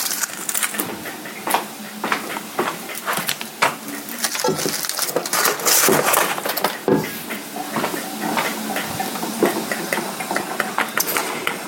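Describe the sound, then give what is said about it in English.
A KitchenAid stand mixer beats a stick of butter, its loud motor drone broken by many irregular knocks and thuds as the paddle works the butter. “So this is a stick of butter, half a cup, putting it into the KitchenAid.”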